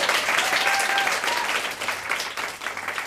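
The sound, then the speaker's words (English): Audience applause at a live evening event, greeting a guest as she leaves the stage: steady, dense clapping that holds at an even level for about three seconds and fades slightly near the end. “Everyone put their hands together for Shelley, please.”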